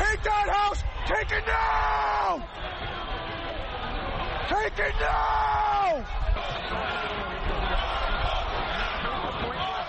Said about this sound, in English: That was the sound of the riot in Washington Wednesday when thousands stormed Capitol Hill.